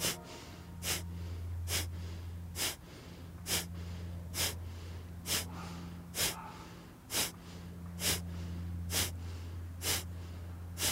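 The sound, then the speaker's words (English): Forceful nasal exhalations from yogic breathing, mouth closed and navel drawing back with each push, come as a steady rhythmic series of sharp, breathy bursts, each under a second apart, over a low continuous hum. “So then you're going to close your mouth and start doing it through your nose. So your exhalation is passive, your exhalation is active, your navel draws back, your inhalation is passive.”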